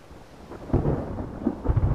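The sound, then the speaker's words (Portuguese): Deep rolling thunder from an approaching storm, a low rumble that builds and surges in a few heavy swells over about two seconds, heard alone. “A tempestade está a aproximar-se.”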